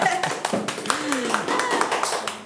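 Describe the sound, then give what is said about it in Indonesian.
A small group clapping during a casual conversation about coffee, sparse, irregular claps mixed with ongoing talk and laughter. “Applause. Yeah. Applause for Mas”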